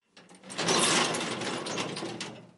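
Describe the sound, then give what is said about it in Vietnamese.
An iron prison cell door closing gives a sustained grinding, rattling metallic noise that swells quickly and holds for about two seconds before fading out. “Cửa sắt đóng lại, Triệu Ngọc đi vào phòng giam mới.”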